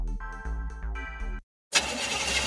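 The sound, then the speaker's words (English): A car engine cranks without catching, the starter churning in a rapid, rhythmic chug of repeated pulses for over a second before cutting off abruptly. “That sound is every driver's worst fear. How much will the repairs cost? Is it your engine, your transmission, or worse?”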